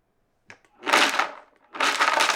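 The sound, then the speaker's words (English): A blender pulses broken-up chocolate bars in two loud bursts of harsh grinding and crunching noise, separated by a brief pause. “toss it in the blender, and then we pulse it. So here we go. I'll turn it on here.”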